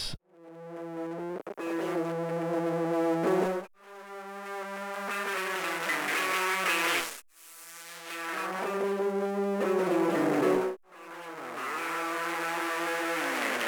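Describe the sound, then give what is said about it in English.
Buzzy modular synthesizer tones pass through a filter whose cutoff follows an envelope, triggered by a gate and shaped in rise and fall by random voltage. Several sustained notes are cut by short gaps, each with a sweeping, swelling timbre. “So I've got the envelope B from the 4MS controlling the cutoff of that filter.”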